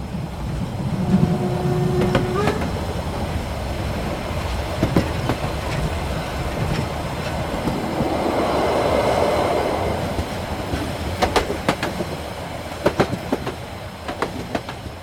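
A freight train rolls on rails with a steady, loud rumble, a rhythmic clickety-clack of wheels and scattered sharp metallic clicks throughout.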